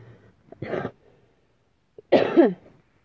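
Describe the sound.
Coughing after choking on saliva comes in two short, harsh bouts separated by a pause, loud and alone with no talking.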